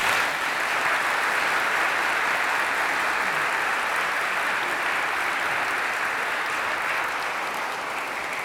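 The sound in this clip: Sustained audience applause welcoming Father Jim Martin as speaker at a talk on joy, humor and laughter in spiritual life: an even, continuous roar of many hands clapping at constant loudness throughout.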